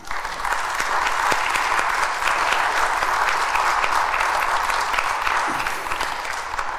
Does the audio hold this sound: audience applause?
yes